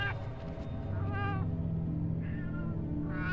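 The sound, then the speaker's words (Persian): A cat meows repeatedly, giving several short, tonal meows spaced about a second apart over a steady low background rumble. No one speaks. “تو همین حینم رو به من میو میو میکرد.”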